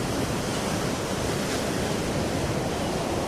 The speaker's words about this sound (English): The dark sea churns and foams as it rolls into the rugged shoreline.